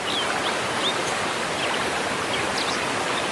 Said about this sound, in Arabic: هيدا مش بس نبع، هيدا شلال بفجر صمت الجبل.